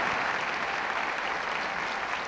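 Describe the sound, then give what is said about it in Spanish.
An audience applauds a jazz orchestra at the close of a festival concert, warm, dense clapping that stays full and even throughout without a break. “¡Qué precioso aplauso!”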